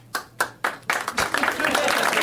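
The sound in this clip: Part of an audience gives scattered clapping: three separate, loud claps with pauses between them, then a thin, uneven patter as more hands join in.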